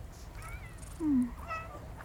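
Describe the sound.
A cat gives a single short, low meow over a steady background hiss, with a fainter sound following it.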